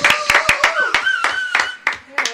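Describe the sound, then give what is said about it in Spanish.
Applause as quick, rhythmic hand claps, many sharp strokes at an even pace. Voices carry over the clapping throughout. “¡Aplausos!”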